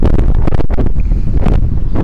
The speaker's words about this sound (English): Coming up something fierce. Kill the gain, too much wind.